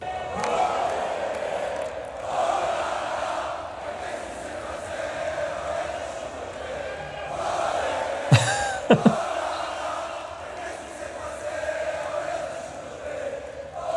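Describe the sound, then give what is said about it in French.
About 15,000 RC Lens football supporters roar and chant at Bollaert at night as they welcome their team. The steady dense crowd noise continues throughout, with a few sharp bangs cutting through near the middle. “Donc ça, c'était dans la nuit de samedi à dimanche, l'accueil triomphal à Bollard pour les joueurs du RC Lens. 15 000 supporters réunis à 3h du matin pour accueillir leur équipe.”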